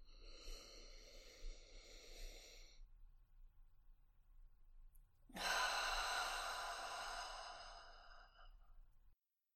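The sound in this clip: Audible exhale during a guided breathing exercise: a soft, breathy sound, several seconds of near-silence, then a long, loud sighing release of breath that slowly fades away.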